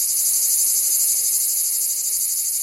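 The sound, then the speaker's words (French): Cicadas singing in southern regions: a dense, continuous, high-pitched shrill buzz that stays steady and fairly loud throughout, with no voices. “Commençons par les plus connus de nos régions méridionales, les cigales.”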